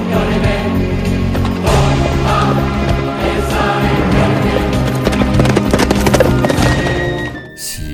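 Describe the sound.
A galloping horse carrying a rider in a cuirass along roads: loud, rhythmic hoof clatter runs steadily over a dense, sustained background, then cuts off sharply near the end.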